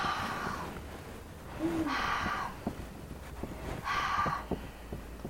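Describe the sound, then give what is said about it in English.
A voice makes a rasping, swirling sound in the back of the throat with the mouth shut, like heavy masked breathing. It comes in two sustained bursts carrying a thin whistling tone. “shut your mouth, but carry on saying the, and what you'll get is like a swirling sound in the back of your throat, a bit like a Darth Vader type sound. So I'll do it.”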